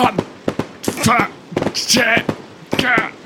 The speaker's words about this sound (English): Yes, and then fireworks went off behind you.